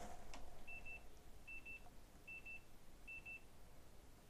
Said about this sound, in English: The sound was the camera running out of space.